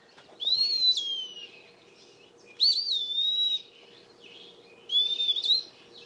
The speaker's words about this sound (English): the first file I got is this Eastern wood peewee, and listen to this.